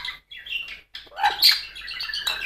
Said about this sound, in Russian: Люблю тебя, люблю мою птичку, мою птичку. Птичка моя, люблю тебя